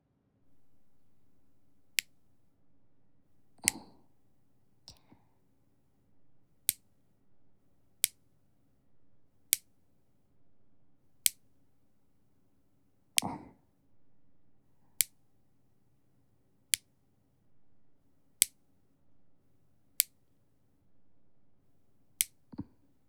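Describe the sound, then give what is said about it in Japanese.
Nail clippers cutting fingernails, with a long series of crisp, sharp clicks spaced at a slow, fairly regular pace over a quiet background, each snip short and bright, a couple followed by a soft rustle. “じゃあ爪切りますね。”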